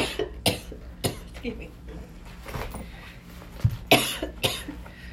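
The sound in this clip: A person coughs several times after choking on something swallowed, giving sharp, harsh bursts spread unevenly across the stretch with faint handling noises between them.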